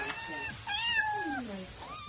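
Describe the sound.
A little female cat meows a few times in high, whiny cries. One long meow in the middle slides down in pitch, and the cries are moderately loud.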